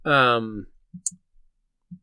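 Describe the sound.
A few isolated keyboard clicks at irregular intervals follow a brief voice at the start, with silence between the keystrokes.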